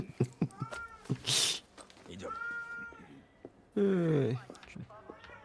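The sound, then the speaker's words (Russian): A cat that has just woken up meows a few times, with drawn-out, wavering calls mixed in among people talking nearby. “Котик проснулся. Котик.”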